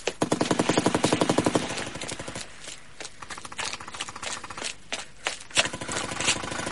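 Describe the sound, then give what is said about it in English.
Gunfire from a shooter on a balcony: a rapid automatic burst of evenly spaced shots, loud and sustained for under two seconds, followed by scattered irregular shots and short bursts. “Did you see where he's firing from? He's on the balcony.”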